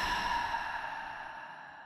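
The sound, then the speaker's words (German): A slow, deep breath out during a guided breathing exercise: a soft, airy, breathy rush that holds steady and gradually fades over about two seconds. “Atme einmal tief ein Und wieder aus.”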